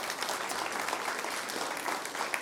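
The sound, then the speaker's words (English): A church audience applauds a person, making an even, steady clatter of many hands clapping. It is fairly soft and continues throughout without voices. “So can we give Chris a hand for what he did?”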